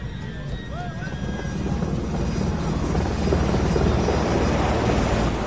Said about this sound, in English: Helicopters approach the Latania. The SEALs stand on deck, guarding the passengers, who all have their hands on their heads except the ship's captain. He looks up to see a rope drop down from the helicopter hovering overhead.